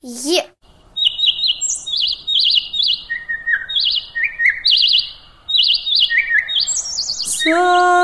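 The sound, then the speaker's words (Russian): A nightingale sings in bursts of rapid high chirps and trills that shift between pitches across several phrases. A child's voice is heard briefly at the start and again at the end. “Соловей.”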